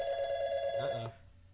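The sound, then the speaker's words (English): A telephone rings with a steady, bright electronic trill for about a second, then cuts off abruptly, leaving only faint background noise. “were you expecting a phone call?”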